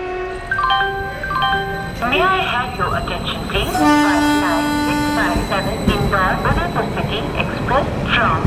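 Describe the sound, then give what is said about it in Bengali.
A train departs from a platform. Several loud horn blasts sound at steady pitches over a continuous rumble, with voices talking throughout. “Train ছাড়ল।”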